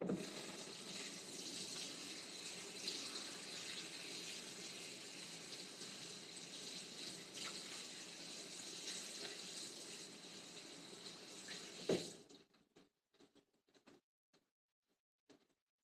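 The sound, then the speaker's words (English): Tap water runs as bok choy is rinsed, a steady hissing rush for about twelve seconds that cuts off abruptly, followed by a few scattered faint drips and taps. “I'm gonna get my bok choy. I'm gonna rinse it first.”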